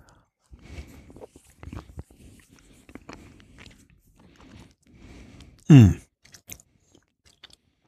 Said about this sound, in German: Ich lege die mal auf meine Zunge und tue die ein bisschen ankauen und mhm. dann bringe ich einen Schluck rum dazu.